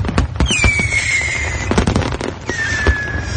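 Fireworks going off in a dense run of loud bangs and crackles, with two long whistling streaks that cut through the bursts.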